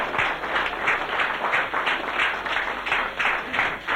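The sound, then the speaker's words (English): An audience at a religious meeting claps, producing loud, sustained applause with a fairly even rhythmic pulse of claps throughout. “Give him a clap.”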